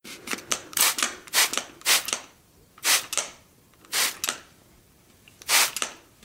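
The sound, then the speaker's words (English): A spray bottle is squirted in many short, sharp hissing bursts, bunched in quick clusters with brief pauses between them. Each spray is bright and airy, and no voices are heard. “The sound you just heard was a recording of a spray bottle.”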